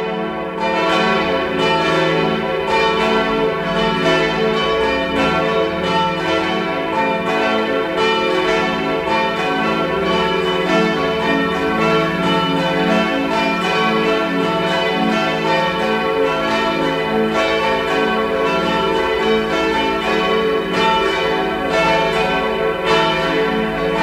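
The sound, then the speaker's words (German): Church bells of a modern parish church in Innsbruck ring out at noon in a dense, continuous peal, with overlapping strokes blending into a steady, loud wash of tone that holds its level throughout, no voices present. “Sie hören die Glocken der Pfarrkirche Maria am Gestade in Innsbruck.”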